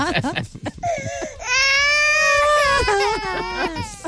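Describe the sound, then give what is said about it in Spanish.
A baby crying: short choppy sobs lead into one long, sustained wail, followed by a few more broken, whimpering cries. “Llora, bebé.”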